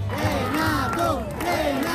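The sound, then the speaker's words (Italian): A crowd chanting for Renato Zero at a cinema event in Ostia, Rome: many voices join in a loud, rhythmic chorus that rises and falls in pitch. “I cori, gli applausi, tutti per lui.”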